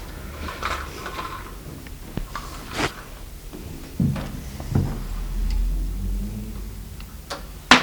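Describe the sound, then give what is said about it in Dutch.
A door lock being swapped out downstairs makes irregular mechanical clicks, taps and short scrapes, with a longer rubbing stretch midway and a sharper clack at the end. “Ondertussen wordt er ook beneden een slot verwisseld.”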